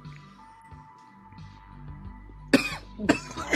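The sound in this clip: A person coughs and clears their throat: two sharp, loud coughs near the end, each with a rough trailing rasp, after a stretch of quiet low hum.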